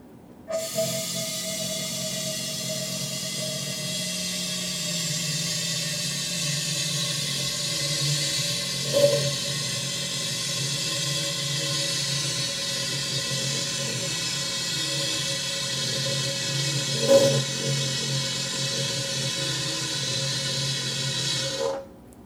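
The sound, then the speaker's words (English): CO2 gas hissing from a gas line without its connector into a 2.5-gallon keg: a steady, continuous hiss lasting about twenty seconds, with two brief louder bumps partway through. “I'm going to pump some CO2 into my 2.5-gallon keg for about 20 seconds to get all the oxygen out of there.”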